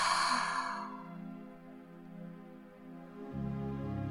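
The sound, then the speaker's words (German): Breath pushed out forcefully during a tension-release breathing exercise. A soft, breathy rush fades away over a faint, steady tonal background. “Und atme auf zwei Stöße lösend wieder aus und lasse die Körperspannung wieder los.”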